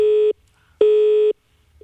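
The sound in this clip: Telephone busy signal: a steady mid-pitched tone pulsing on and off with short silences between. Two full pulses are followed by the start of a third, loud and alone.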